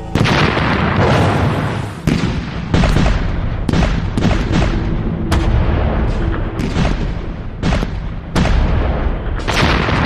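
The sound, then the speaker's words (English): Heavy artillery shelling pounding German defenses along a canal: many loud, deep booms in rapid, irregular succession, each blast cracking sharply and rolling into the next with no pause. “But Monash's powerful artillery is pulverizing German defenses right along the San Quentin Canal. Every kilometer is hit with 250 shells.”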